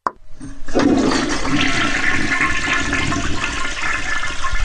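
Toilet flushing: a brief click, then loud rushing, gurgling water that surges in and holds steady for about four seconds.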